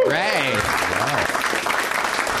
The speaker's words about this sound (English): I've never put it that way and never got a round of applause after saying it